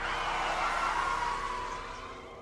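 A car braking hard with its tires skidding, a sustained loud hiss and screech that holds steady for about a second before fading away.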